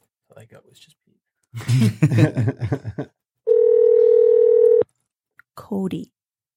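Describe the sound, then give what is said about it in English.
Steady telephone dial tone on a call being placed, a flat continuous hum lasting over a second that cuts off abruptly, with people talking before it and a brief voice after. “We're going to go back over here because we dialed the wrong number. Try, at least. And then we'll be back to you guys. Okay. Let's try this again.”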